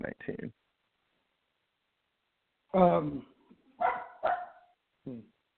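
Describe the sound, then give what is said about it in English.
A dog barks in several short, sharp bursts separated by pauses, with a quick cluster of barks first and a few more single barks later. “I apologize for the dog going nuts.”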